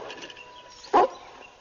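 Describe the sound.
Dog giving a single short, fairly loud bark that rises out of a quiet background midway through.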